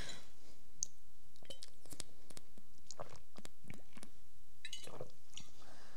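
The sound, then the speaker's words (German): Someone takes a sip of a drink, a faint run of many small wet clicks and mouth noises spread across the pause, with no talking. “Ich muss mal einen Schluck trinken.”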